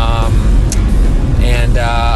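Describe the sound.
A car driving on the road gives a loud, steady low rumble of road and engine noise under a person talking.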